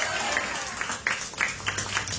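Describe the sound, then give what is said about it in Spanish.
A church audience claps as an offering of praise to God during a service. The applause is moderate and fairly even, with a few louder claps standing out from the steady patter. “Dale una ofrenda de palmas fuertes a nuestro Dios.”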